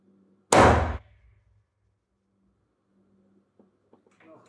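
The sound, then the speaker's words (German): A single loud rifle shot from a .243 Winchester calibre rifle, a sharp blast that decays within half a second. Near silence follows, with a few faint small clicks. “Äh, was für ein Kaliber war das jetzt? Das ist 243 Winchester.”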